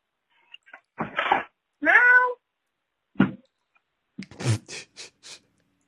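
A cat meows a few times. One drawn-out harmonic meow stands out among shorter, rougher calls, moderately loud with no talk.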